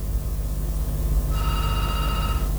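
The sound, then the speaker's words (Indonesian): An incoming WhatsApp call rings partway through as a steady, high electronic ringtone over a noisy background. “Ini telepon WA-nya lagi.”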